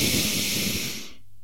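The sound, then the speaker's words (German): One deep breath during a guided breathing exercise: a long, loud, airy hiss of air that holds steady and then fades away near the end. “atme aus und nochmal, atme tief ein.”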